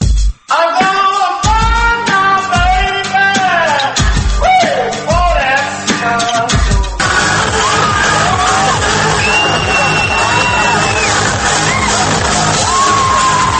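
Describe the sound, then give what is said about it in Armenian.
Crowd cheering and shouting at an Iranian Nowruz New Year celebration in Armenia, loud and continuous. In the first half the voices ride over deep, regular thumps; later they merge into a dense, unbroken roar. “Այսպես են տոնում Նովրուզ Բայրամը իրանական նոր տարին իրանցիները Հայաստանում։”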